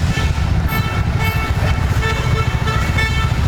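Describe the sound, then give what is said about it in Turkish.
Car horns toot on a road as drivers slow for cows crossing in front of them. Short honks sound over loud, continuous engine and traffic noise. “Bazı sürücüler ise hayvanları yoldan uzaklaştırmak için kornaya basıp yavaşladı.”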